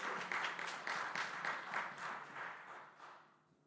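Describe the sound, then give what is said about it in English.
A church audience applauds to welcome a guest at a morning service, with a brisk patter of many hands clapping that thins out and fades toward the end. “May I say a very welcome to Bertana, is here with us this morning. Maybe we could give him a big hand.”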